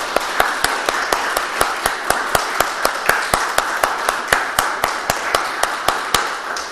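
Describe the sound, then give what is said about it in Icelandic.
An audience claps together in a fast, even rhythm after a discussion event, with many sharp claps spaced regularly and at steady loudness throughout. “gefa Sverri Agnarssyni gott klapp fyrir komuna og umræðuna”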